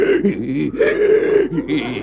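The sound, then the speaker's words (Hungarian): A voice imitates wheezing breath whistling through a metal tube set in the larynx, in a cabaret comedy sketch: a couple of seconds of strained, voiced, rasping in-and-out breaths with a wavering tone. “Krach fémcsövet helyeztetett a gégéjébe, s azon át sipolva lélegzik ki be. Valahogy így, hogy...”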